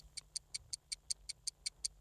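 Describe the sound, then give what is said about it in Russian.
A quiz show timer clock ticks eleven times, faint and alone, with crisp, evenly spaced ticks at a steady rhythm. “Время тик-так.”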